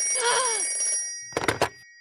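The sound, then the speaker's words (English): An old-style telephone bell rings in two short, loud bursts after a fading tonal sound. “I'm going to call Jack and warn him. Get away from that phone.”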